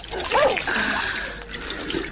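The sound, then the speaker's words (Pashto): Water pours into a small jug in a short, steady trickle with a slight gurgle, fairly faint and brief. “صبر، چې لوټکه کې اوبه واچوم.”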